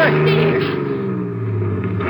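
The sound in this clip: A car engine accelerates toward a bridge barricade in a radio drama, a loud, steady droning roar with voices heard over it.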